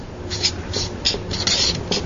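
Writing by hand: a few brisk, scratchy strokes in quick, uneven succession, bright and papery, with no voices.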